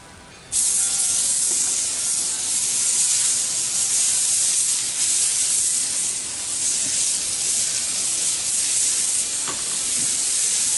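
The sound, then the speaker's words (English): A smash burger sizzles on a new Blackstone griddle, a loud, steady hissing fry that bursts in abruptly at the start and keeps crackling evenly throughout. “There it is. First smash burger on the new Blackstone Grill.”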